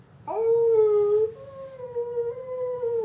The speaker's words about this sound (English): Got wolves hunting us. Every now and then, as you're looking at the map and you kind of make a stop, you hear,